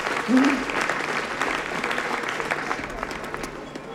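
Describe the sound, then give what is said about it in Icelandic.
An audience applauds steadily, with dense, even clapping filling the whole clip. A brief voice is heard near the start. “það má sko alveg standa upp og klappa”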